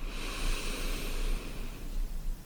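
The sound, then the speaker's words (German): A deep breath drawn in and let out during a guided breathing exercise: a long, soft, airy rush that stays fairly steady throughout and fades slightly toward the end. “Und noch ein letztes Mal tief einatmen”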